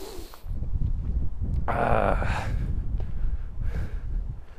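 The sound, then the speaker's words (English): Cold wind blowing outdoors, a constant low rumbling buffet with a brief rushing surge near the middle, no talk heard. “It is really effing cold. This wind is horrible. It is absolutely sending chills.”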